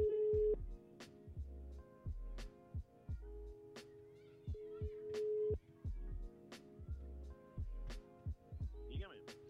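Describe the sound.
Ringback tone of an outgoing telephone call: a steady mid-pitched tone sounding in a few long bursts, over a regular low thumping beat that runs throughout.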